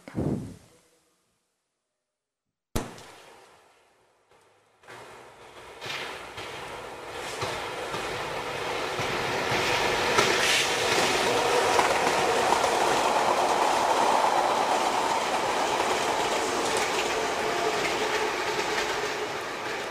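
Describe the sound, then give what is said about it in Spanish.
New York subway train in the early morning: a low thump and a brief burst come first, separated by near silence. Then a rumbling train builds up and settles into a loud, steady roar with rattling wheels. “Son las 7 de la mañana en el metro de Nueva York.”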